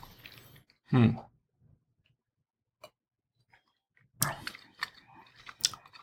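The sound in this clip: Chewing on a piece of white cheddar cheese: soft, moist crunching bursts, one louder early on and a denser cluster near the end, separated by near silence.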